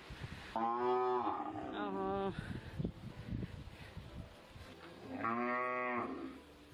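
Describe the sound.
Cattle moo in a village. A long, low, harmonic call comes near the start and another near the end, with a person talking in between.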